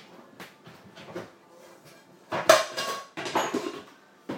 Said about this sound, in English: get my frying pan out.